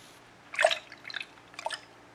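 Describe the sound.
Faint water drips while a man shaves, with a few soft, separate drops and quiet pauses between them.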